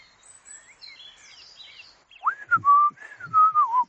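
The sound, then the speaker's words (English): Male robin song: thin, high, warbling notes at first, then louder, lower, sliding whistled phrases. The melodic phrases stand alone, with no talk. “What we're hearing with songs, on the other hand, is like this little robin.”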